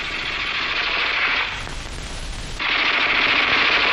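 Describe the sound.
Rapid, crisp rattling fire from a Japanese 'crooked-handle' light machine gun in wartime combat, sustained throughout with a brief lighter lull midway before the full rattle resumes.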